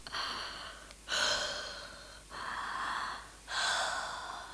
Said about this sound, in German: Und jetzt kommt dein Rücken dran, den horche ich auch noch ab. Bitte noch mal ein- und ausatmen.